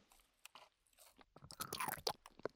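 Chewing konjac up close: soft, moist bites and squelching mouth sounds come in irregular bursts, sparse at first and then busier, faint and with no talk.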